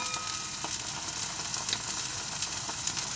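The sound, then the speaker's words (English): Steak frying in oil in a pan gives a steady, dense sizzle, a constant hiss dotted with faint crackles and pops, unbroken throughout. “Ooh, let's turn this steak while we're at it. So a little tiny bit of oil onto the steak.”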